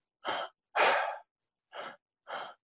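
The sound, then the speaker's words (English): Forceful breathing through the mouth, demonstrated as a two-part breath into the lower belly and upper chest while lying flat on the back: four sharp, airy bursts in two pairs separated by a pause, the second burst the longest. “it's a two-part breath. So it's in lower belly, upper chest, and it's all through the mouth. So you just go.”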